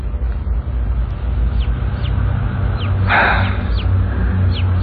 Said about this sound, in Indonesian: Ya, sayup-sayup ku dengar suara. Ini suara seekor anak ayam yang berbunyi.